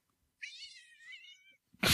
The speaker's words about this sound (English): How perfect. The cat.